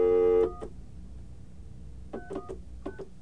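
Telephone line sounds on a brand-new phone system during an outgoing call attempt: a steady multi-pitched tone stops abruptly, and after a quiet pause a few short clusters of clicks and beeps follow.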